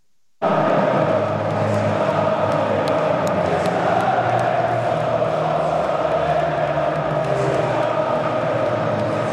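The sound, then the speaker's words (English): A football crowd of nearly 42,000 at Wembley Stadium roaring and cheering at full time as the England players celebrate with them. A loud, dense wall of crowd noise starts abruptly and holds steady throughout. “this was the noise of the supporters as the England players celebrated with them at full time”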